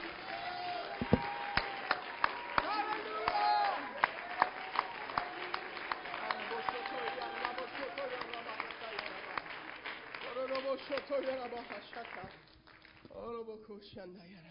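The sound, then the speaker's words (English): Congregation clapping hands during a church service, a steady rhythm of sharp claps running under loud voices and thinning out toward the end. “Come on, can we clap our hands to Jesus just for a minute?”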